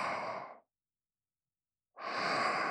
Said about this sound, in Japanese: ゆっくり息吸って、ほら吸って、吐いて、